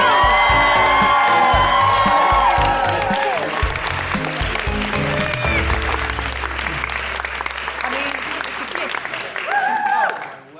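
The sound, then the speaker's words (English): Audience applauding and whooping as a guest is welcomed at a live evening show. Dense, loud clapping runs throughout with cheers mixed in, and high whoops rise near the end before the noise cuts off. “put your hands together and make incredible whooing noises for the wonderful Jessica Fostekew”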